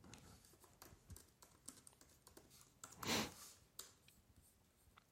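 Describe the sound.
Faint typing on a computer keyboard, scattered light clicks in an uneven rhythm, quiet and alone.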